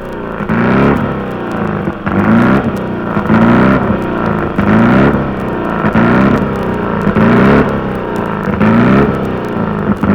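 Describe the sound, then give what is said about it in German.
A BMW racing machine's engine warming up before final practice laps, blipped again and again in a steady rhythm about once a second, each loud rev climbing in pitch and dropping back to a throbbing idle. “Die BMW von Max Deubel und Emil Hörner läuft für die letzten Trainingsrunden warm.”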